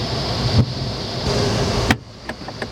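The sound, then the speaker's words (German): Glider tow cable releasing during a winch launch: a steady rushing roar of wind and rumble, then one sharp clunk, after which the roar drops away and a few faint ticks follow. “Das war jetzt das Seil. Wir sind ausgeklingt.”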